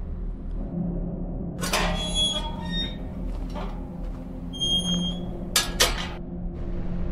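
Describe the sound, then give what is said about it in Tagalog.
A gate creaks open in a few high, drawn-out squeaking tones over a low steady rumble, followed by a couple of sharp knocks near the end. “Ilang minuto pa siyang nag-antay bago tuluyan binuksan ang gate.”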